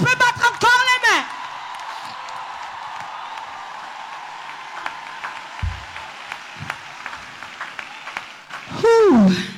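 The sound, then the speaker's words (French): A church audience claps and cries out in acclaim of the Holy Spirit. Loud shouted voices open and close the passage, and a steady, moderate patter of applause with scattered sharper claps runs between them. “Tu es déjà fatigué d'acclamer le Saint-Esprit? Est-ce que quelqu'un peut battre, peut battre, peut battre?”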